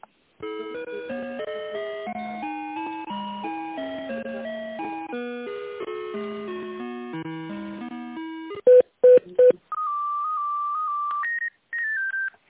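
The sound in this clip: Telephone hold tones during a call transfer to a company's sales department head: a steady, stepping electronic melody, then three short loud beeps, a long sustained tone and a shorter, higher one. No voices.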